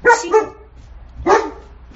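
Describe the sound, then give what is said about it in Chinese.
A dog barks a few times: two sharp barks close together, a short gap, then one more loud bark, each clear and alone. “那个我们今天还有一个特别来宾，大来宾是一只狗狗”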